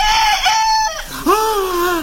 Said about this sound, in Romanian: Era un cocoș. Da, da, un cocoș.